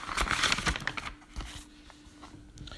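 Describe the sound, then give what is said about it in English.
Soft crinkling and tearing of a windowless paper envelope being opened, with a few crisp rustles packed into the first second before the paper noise thins to faint, scattered crackles. “It's a windowless envelope with the stamped name and address on the front. And when we go inside,”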